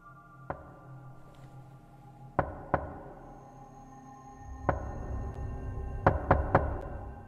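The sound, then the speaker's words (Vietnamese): Knocking on a door, delivered as sharp, quiet raps: a single knock, a quick pair, another single, then a final fast run of three knocks, with soft background hiss between them. “Ở bên ngoài kia, tiếng gõ cửa lại tiếp tục vang lên ba nhịp một.”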